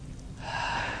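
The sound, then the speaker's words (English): A deep breath drawn in slowly through the nose or mouth, a soft airy rush that swells steadily and grows louder toward the end. “take a really deep breath right now.”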